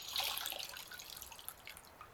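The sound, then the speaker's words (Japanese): Faint trickling and dripping of water as feet are lifted out of a basin of hot water. The sound is soft, brief and splashy, with no voices. “そうしたら、足をお湯から出して、”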